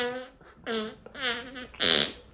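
A wet, juicy-sounding fart made up of a few buzzy, tonal sputters with wavering pitch, separated by short pauses. The last burst is the loudest, and the whole sound is fairly faint.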